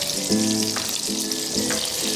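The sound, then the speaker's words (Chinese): Garlic slices, bell pepper pieces and yam slices stir-fry in hot oil, giving a faint, steady sizzling hiss that continues without a break. “倒入蒜片爆香，放入彩椒段，彩椒段爆到略微有点软的时候，倒入山药片，”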